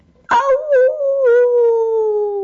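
A wolf howls in one long, steady tone that drifts slightly lower in pitch, loud and sustained for about two seconds before cutting off.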